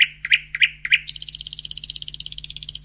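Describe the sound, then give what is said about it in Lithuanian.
Nightingale song: four separate sharp, high chirps followed by a fast, even trill of many repeated notes, clear and alone with no talk. “Kartą ant namelio stogo nutupė lakštutė.”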